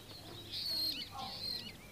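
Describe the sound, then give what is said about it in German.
Starlings chirp in a garden, giving a few short, high, bright chirps in two quick bursts over a low, quiet background. “Die Starre zwitschern.”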